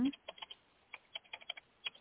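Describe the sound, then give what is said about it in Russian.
Computer keyboard typing as a comment is written: a series of light, irregular keystroke clicks over a narrow, phone-like line. “Все, тогда пишу комментарий и направляю для Марии.”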